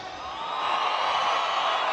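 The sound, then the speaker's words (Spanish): A crowd shouting and whistling at a live singing show, a dense, steady, high-pitched roar of cheers and whistles that holds loud and unbroken for the whole stretch. “El grito y el chiflido de la gente cabrona.”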